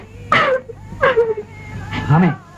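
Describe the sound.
A woman cries in three loud, wavering bursts of wailing sobs during a tense domestic quarrel, each burst voiced and strained, separated by short pauses.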